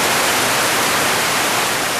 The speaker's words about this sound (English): That's not football. That's the sound of running water. Well, you're listening, I guess, to the whoosh of the fountain at an entrance to the new SoFi football stadium in Inglewood